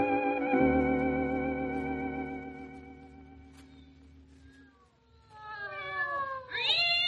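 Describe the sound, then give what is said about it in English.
Cats caterwauling in the middle of the night let out long, wavering yowls that fade gradually, then break into higher, rising and bending wails near the end. “Sounds as if something's getting murdered. Well, something will if it doesn't shut up. Blasted cats. Why do cats always choose the middle of the night?”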